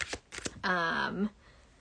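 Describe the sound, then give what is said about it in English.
A card is drawn from a deck for a viewer during a live card pull. A few quick, crisp papery flicks and snaps come first, followed by a short, sustained voiced sound. “Here, Natasha, I didn't pull you a card, but I'm going to pull you one right now.”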